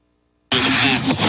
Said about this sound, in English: This video, shared by Russian state-affiliated media, shows a Russian vehicle firing explosives.